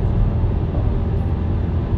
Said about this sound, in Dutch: Zo. Dat is gewoon een Mercedes.